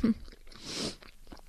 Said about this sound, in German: Vorher esse ich noch mal ein Stück Banane.